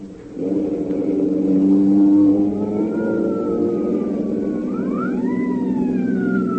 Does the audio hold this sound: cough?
no